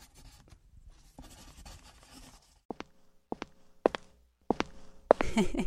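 A pen scratches out an autograph in soft, rasping strokes, followed by several sharp ticks and taps as the writing finishes.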